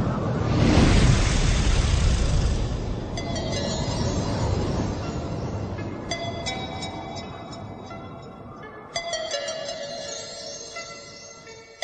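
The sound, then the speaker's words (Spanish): A train runs on the rails with a loud, broad rumble that slowly eases. Ringing, squealing metallic tones join in partway through, and a sharp clank comes near the end. “Estamos en la estación, cogemos el tren del misterio, un tren que hemos llamado Los Misterios Nos Miran.”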